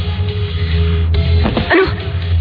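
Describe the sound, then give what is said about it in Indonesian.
A dog howls in short, whining yips and a whimper over a steady low hum. “Ketika aku sedang fokus mendengarkan lolongan anjing itu, tiba-tiba,”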